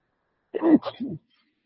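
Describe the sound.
A single sneeze during a religious lesson: a short voiced burst that is loud at first and then trails off into a softer tail, alone against silence.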